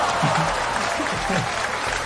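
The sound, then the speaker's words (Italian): Audience applause rolls on as a steady, even wash of clapping beneath a voice that speaks. “Ma era un applauso per Carnelli.”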